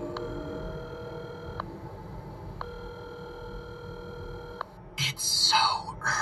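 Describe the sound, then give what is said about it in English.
Telephone call tones play on the line as two long, steady electronic tones with a gap between them, and then a voice begins to speak. “Dial John O. Fisher.”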